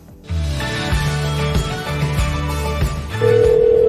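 An electronic telephone ring for an incoming call, a steady tonal pattern broken into short repeating pulses, ending on a higher sustained tone. No voices are heard.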